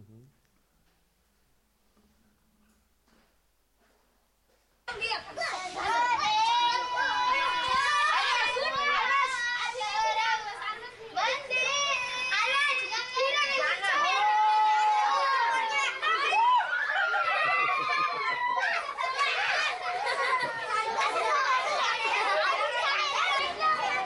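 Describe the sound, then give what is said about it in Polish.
Children playing in an orphanage, a busy overlapping mix of high young voices, shouts and chatter that bursts in loudly after several seconds of near silence and stays lively to the end. “Jeszcze jeden film, gdzie dzieci bawią się tutaj w tym sierocińcu.”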